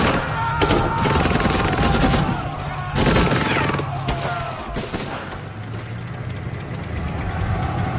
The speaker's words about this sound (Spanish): Prohor dispara a un artillero alemán. Avanzan hacia la línea alemana.